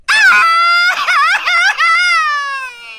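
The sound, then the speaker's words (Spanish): A man crying in a loud, drawn-out wail. His voice wavers up and down in pitch, breaks into quivering sobs, then tapers off on a long, fading note. “Él no está gritando un grito mexicano, él está llorando.”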